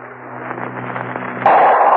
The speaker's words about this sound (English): Vesuvius has exploded. Pompeii has disappeared under an inferno of flaming rock and a hail of scalding, fiery steam.